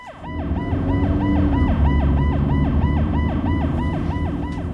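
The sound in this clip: A police car siren wails in fast, even, repeating cycles, swelling in loudness early on and then holding strong over a low rumble of the vehicle's engine and road noise.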